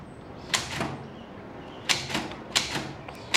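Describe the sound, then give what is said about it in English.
A typewriter types words onto a sheet of paper, with sharp mechanical clacks arriving in short irregular bursts, often in quick pairs, separated by quiet pauses. “Words are typed onto a sheet of paper.”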